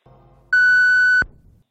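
An answering machine gives a single steady, high-pitched electronic beep lasting under a second, clear and loud against near silence before and after.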